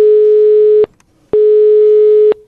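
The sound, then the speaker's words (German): Telephone busy signal heard while calling a hotel in Lucerne: two loud, steady mid-pitched tone bursts of just under a second each, separated by a short silence, with the second cutting off at the end. “Ich habe darum mal im Hotel Montana zu Luzern angerufen und geschaut, ob ich da etwas mit dem Preis könnte machen in diesem Hotel. Und ja, Sie hören es gerade selber, das ist gar nicht so einfach.”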